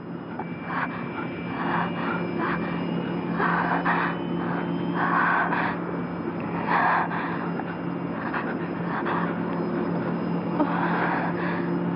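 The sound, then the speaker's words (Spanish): An airplane climbs in flight, its engines producing a steady, continuous drone that stays loud and even throughout, with no voices. “el avión gana altura.”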